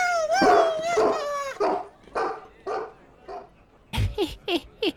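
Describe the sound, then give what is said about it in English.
A dog whines and howls in long, wavering cries, then breaks into a quick run of about four sharp barks. “That's not a pony! That's my dog!”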